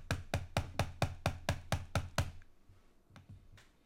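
Repeated clicking on a computer, a quick, even run of many soft taps with a dull knock, then a pause and two fainter clicks, quiet and with no talk.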